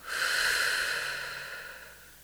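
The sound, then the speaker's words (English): A single long, airy deep breath during a guided meditation, swelling quickly and then slowly fading out, soft and breathy with no voice. “you're going to take a few deep breaths in and out”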